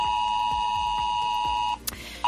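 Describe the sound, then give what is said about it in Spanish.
An emergency alert tone sounds on mobile phones during a nuclear emergency drill around the Trillo nuclear power plant in Guadalajara. It is a loud, steady, high-pitched tone over a pulsing low buzz, cutting off near the end and then briefly starting again. “Esto ha sonado en los teléfonos de los vecinos de 8 municipios de Guadalajara, aquellos que están a 10 kilómetros a la redonda de la central nuclear de Trillo.”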